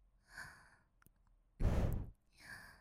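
Heavy breathing as a person's breath quickens: three breathy, sighing exhales, the middle one loudest and longest, with a faint click between the first two.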